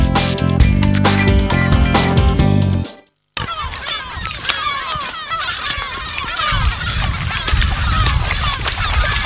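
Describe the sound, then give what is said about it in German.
Geese and other birds calling on the North Sea island of Spiekeroog during a spring breeding-bird count. A short burst of music and a brief silence come first, then many overlapping honks and calls continue loudly. “Ja, man hört's, wir sind zurück auf der Insel Spiekeroog, wo wir gemeinsam mit den Bundesfreiwilligendienstleistenden Johanna und Mareike Vögel zählen.”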